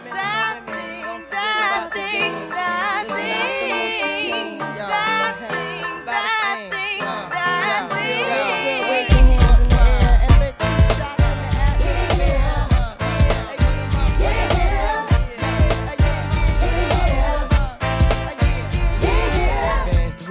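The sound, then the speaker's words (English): A fusion of hip hop and old school soul with a horn section: a sung vocal over light backing for about nine seconds, then a loud, punchy drum beat enters and drives the rest. “And what you're hearing is a fusion of hip hop, old school soul, a horn section, and you're thinking, what is this?”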